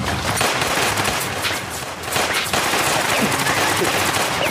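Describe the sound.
Loud, rapid automatic gunfire rattles on without a break, with many shots packed into dense bursts that fill the whole clip.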